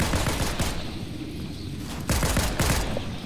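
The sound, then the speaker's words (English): Gunfire in the video game Fortnite comes as a dense run of rapid shots, steady and loud, with a cluster of sharper bursts toward the end. “I got my gun out.”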